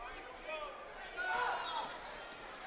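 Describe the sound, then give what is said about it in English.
A basketball dribbled on a court during a women's game, with a crossover dribble along the baseline. Faint bounces sit under a steady wash of crowd noise and voices. “Crossover dribble on the baseline.”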